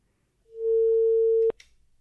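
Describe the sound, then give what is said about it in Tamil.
A telephone busy tone after a phone-in caller's line was cut off during a radio quiz: a single steady, mid-pitched beep lasting about a second, ending abruptly with a faint click. “Okay, நேரோட line பார்த்தீங்க அப்படின்னா cut ஆயிடுச்சு.”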